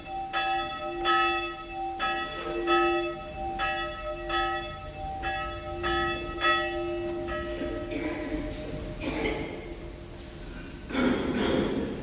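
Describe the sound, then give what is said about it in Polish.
A church bell tolls for a village funeral as the priest heads to the chapel: many ringing, resonant strikes in a slow, steady rhythm, each leaving a sustained humming tone, with rougher noise joining near the end. “Dzwon bije na znak, że oto w tej chwili ksiądz wyszedł z domku grabarza i udaje się do kaplicy.”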